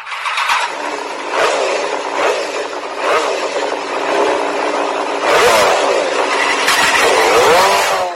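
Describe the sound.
A new motorcycle engine revs hard in a few loud bursts, its pitch sweeping upward in the later surges over a steady engine roar, with no voices.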